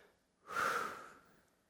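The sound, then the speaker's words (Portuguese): One demonstrative breath, a sharp, audible rush of air that starts strongly and fades off over about a second, heard on its own without any talking. “Então pode respirar, faz assim.”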